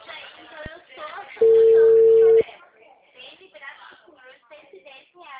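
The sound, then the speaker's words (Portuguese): A single steady telephone tone, about a second long, sounds while a call connects, rising clearly above people talking throughout. “Chamada em caminho.”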